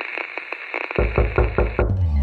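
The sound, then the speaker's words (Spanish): Radio show jingle for a children's eco segment: a sustained bright tone with light pulses, then a punchy run of bass-heavy rhythmic beats over the second half, loud and without voices. “Cool, rueda el jingle.”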